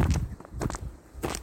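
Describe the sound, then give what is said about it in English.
Footsteps of boots fitted with crampons on a snowy winter hiking trail, three crunching, gritty steps at an even pace, fairly faint. “What you're hearing are my feet. I'm doing a winter hike.”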